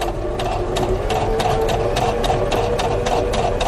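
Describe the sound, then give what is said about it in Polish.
A sewing machine runs in Dakar, Senegal, with a steady mechanical whirr and fast, regular stitching pulses throughout and no talk. “I dla nich ten dźwięk maszyny do szycia codziennie będzie oznaczał sukces w życiu.”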